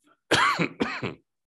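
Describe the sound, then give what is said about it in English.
Throat clearing by someone speaking during a Bible study: two short, rough, voiced bursts in quick succession, fairly loud and heard alone. “Pardon me for my coughing, I've got something caught in my throat.”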